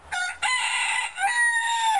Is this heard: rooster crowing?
yes